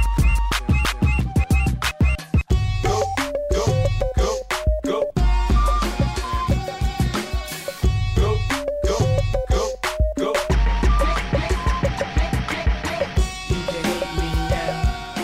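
A sample-based mashup track pieced together from snippets of pre-existing recordings: a dense, loud mix of punchy drum beats, bass and layered melodic fragments that switch abruptly, playing steadily without talk.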